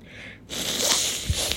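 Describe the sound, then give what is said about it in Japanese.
Someone with a runny nose sniffles while recovering in a quarantine hotel. A long, noisy, wet sniff is followed by a couple of short, snorting pulls of breath. “鼻水じゅるじゅるや。溜まってきましたわ。”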